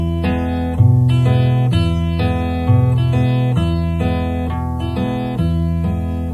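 Acoustic guitar fingerpicked strum, the thumb alternating between bass strings while the fingers pluck the treble strings together. The steady pattern repeats several times, with clear bass notes under ringing higher notes.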